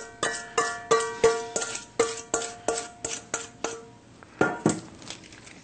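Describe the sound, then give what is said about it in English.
Metal utensil tapping against cookware as marinade is added to a sauté pan: a steady run of many bright, ringing clinks, then a couple of louder knocks and a brief softer rustle. “add in the saute here. I mean the marinade, excuse me. We'll add this directly to the saute.”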